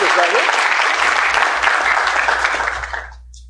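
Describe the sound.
Audience applause welcomes a pastor as guest speaker. The clapping is dense and loud, stays steady for about three seconds, then tapers off quickly at the end.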